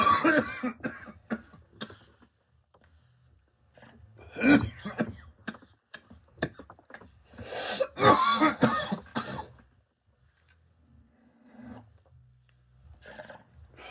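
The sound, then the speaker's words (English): Coughing after inhaling stale smoke: several harsh, raspy bursts and throat-clearing rasps, with quiet gaps between them. “The only reason why I coughed like that was because the shit was stale.”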